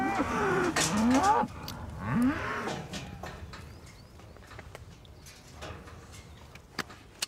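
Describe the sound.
Calves moo on a farm, briefly separated from their mothers: two drawn-out bawling calls in the first seconds, then quieter rustling and a few faint clicks.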